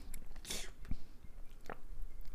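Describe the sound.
Chewing on a blueberry-flavoured marshmallow: a few soft, squishy bites with slight crunch, faint and spread over a quiet background, with no talk.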